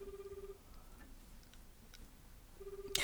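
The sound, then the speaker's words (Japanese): Faint ringback tone of a telephone call ringing out: two short steady tone bursts, separated by a gap of low background noise, with a sudden noisy burst at the very end. “ちょっと今伊藤が高校時代の同級生に電話をしています。”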